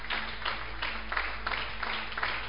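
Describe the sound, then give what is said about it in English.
Congregation clapping during a church service: many rhythmic claps on a steady beat, moderately loud, over a low continuous hum. “Clap for Jesus.”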